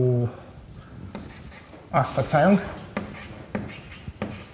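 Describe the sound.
A Basque example sentence is written on a board in several short scratchy, rubbing strokes of even loudness, with brief speech at the start and midway.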